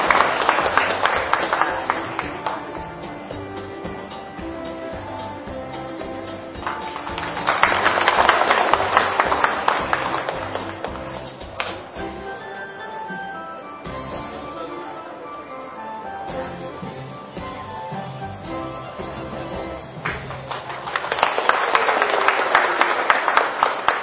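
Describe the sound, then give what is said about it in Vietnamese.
A Buddhist assembly at a retreat closing ceremony applauds to congratulate practitioners, the clapping swelling in two waves over sustained, music-like tones. “Một lần nữa đề nghị chúng hội đạo tràng hãy dương cao một tràng vỗ tay để chúc mừng các hành giả.”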